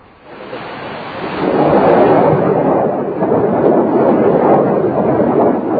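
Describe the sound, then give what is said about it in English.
A deep, rushing roar of rockets launching toward Israel swells from a quiet start, then holds as a steady, dense rumble with no voices. “Hezbollah rockets soar toward Israel. Minutes later, the response from Israeli jets.”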